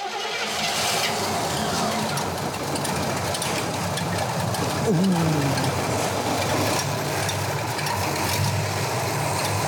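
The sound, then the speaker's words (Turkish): A car engine idles at low speed after being adjusted, running smoothly with a steady, even rumble and hum that holds constant for the whole stretch. “Rolant hızı düşük ama çalışıyor. Harika çalışıyor.”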